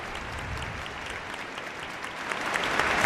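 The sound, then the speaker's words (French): A crowd applauds Pope Leo XIV as he steps down from the popemobile and comes forward, a dense, even rain of clapping that swells louder toward the end. “et qui est acclamé par la foule. Le pape Léon XIV qui s'avance,”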